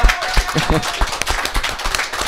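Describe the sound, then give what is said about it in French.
Clapping from a live stage audience, heard as uneven, scattered claps of varying loudness rather than a full ovation, short and irregular throughout. “Sous les applaudissements.”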